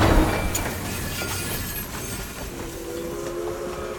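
A moving train rolls along rails with a steady, loud rumble and faint rhythmic clatter of wheels, and no voices.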